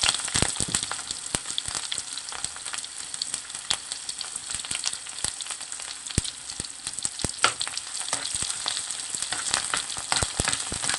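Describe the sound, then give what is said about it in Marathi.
Onion and mustard seeds sauté in hot oil in a pan over a low-to-medium flame. The sizzle is constant, dense and hissing, with many sharp pops and crackles scattered through it. “1 कांदा परतून घेऊ। Flame low to medium वर ठेवायची आहे।”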